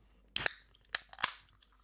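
A drink container being opened gives a few sharp, brief crackling snaps separated by quiet gaps, with no talk during them.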